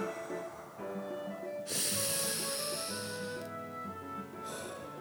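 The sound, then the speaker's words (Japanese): Deep, yoga-style breathing: a long, hissing, airy breath swells loudly for nearly two seconds, then after a short lull another drawn-out breath begins, with no talking. “みたいねヨガみたいな深呼吸ですね深く呼吸をする、ね、これを呼吸と言いますね深く呼吸をするそれを深呼吸と言い”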